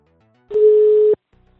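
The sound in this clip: A telephone tone sounds while a call is being placed: one steady, mid-pitched beep lasting about two-thirds of a second, with fainter, quieter tones just before and after it.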